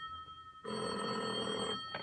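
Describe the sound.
A telephone rings in the morning with a bright, steady bell tone: one sustained ring, then the start of another after a short pause, with no talk.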